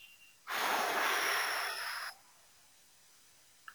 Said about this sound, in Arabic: نكتم النفس قدر الإمكان ثم زفير من الفم